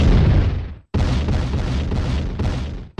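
MOAB bomb explosion sound effect: a loud, deep roaring blast that cuts off abruptly, followed by a second long rumbling detonation that also stops sharply.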